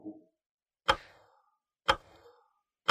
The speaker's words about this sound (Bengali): সময় 15 সেকেন্ড, এর মধ্যে কিন্তু উত্তর দিতে হবে, সময় চলছে, ঘড়ির কাঁটা এগিয়ে যাচ্ছে।